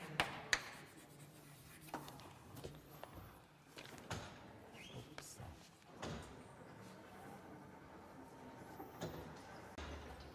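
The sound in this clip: Faint writing during a mathematics lecture: soft scratchy strokes run on and off, broken by a few sharper taps and knocks, with no talking over them.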